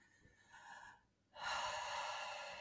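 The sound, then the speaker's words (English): Slow breathing during a guided meditation. A soft, airy inhale is followed by a brief pause, then a longer, fuller exhale that carries on evenly to the end, with no talk. “As you listen to my breath,”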